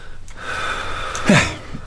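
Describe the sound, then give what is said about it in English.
Breathing during a doctor's chest examination, marked by one sharp, gasp-like intake of breath that stands out over a steady low hiss. “Keep breathing normally.”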